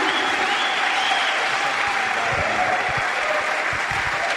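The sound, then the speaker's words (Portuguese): Loud, sustained applause from a standing audience at a church conference evening session. The dense clapping holds steady throughout, with some crowd noise mixed in. “vou pedir para que fiquemos de pé e com uma forte salva de palmas vamos receber Pastor Washington Andrade, da Igreja Videira.”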